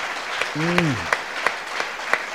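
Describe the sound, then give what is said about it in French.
A church audience claps in unison for the Lord, in steady, evenly spaced beats about three times per second. A brief voice sounds early on. “Can we just give a clap offering to the Lord? Oui, on va applaudir le Seigneur.”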